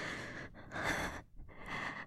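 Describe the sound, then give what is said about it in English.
A woman gasping during an intimate sexual encounter: a few sharp, breathy gasps and heavy breaths, with no talk. “And I gasp. And then my whole body shudders”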